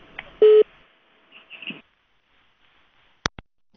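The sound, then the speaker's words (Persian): A short, steady telephone tone sounds once as a radio call-in line disconnects, followed by near silence and a sharp click at the end. “متاسفانه تماس آقای ترخیل قطع شد.”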